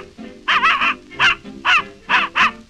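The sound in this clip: A human voice imitates a little dog's yapping barks: a quick run of three short, high yaps, then four more spaced apart, loud and alone.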